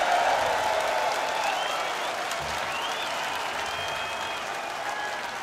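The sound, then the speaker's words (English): Sustained applause and cheering from a large outdoor crowd at a heavy metal festival after a band's set. The dense, steady wash of clapping holds an even loudness throughout, with a few high whistles above it. “Everybody give yourself a round of applause for coming out here and sticking out.”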